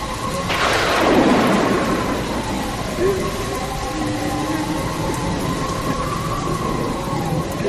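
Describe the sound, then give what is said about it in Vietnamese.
A late-night thunderstorm with thunder, wind and rain. A loud rolling rumble of thunder swells early and fades, while heavy rain hisses steadily throughout. “Rồi đến khuya, trời bỗng sấm chớp nổi lên liên hồi rạ rỡ, và tiếp sau là một trận mưa gió bão bùng”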